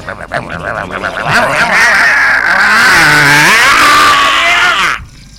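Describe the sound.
A car engine revs hard, its whine climbing, dipping briefly, then rising again in a loud sustained roar before cutting off abruptly near the end.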